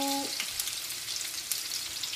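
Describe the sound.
Cooking oil sizzling in a frying pan, about half a tablespoon added: a steady, dense hiss and crackle throughout, with a brief tonal sound at the very start.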